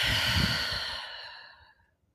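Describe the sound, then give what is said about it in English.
A slow, deep breath during a guided breathing exercise. A long, soft airy exhale gradually fades to silence, and no talk is heard over it. “And then taking another deep breath in through your nose, out through your mouth.”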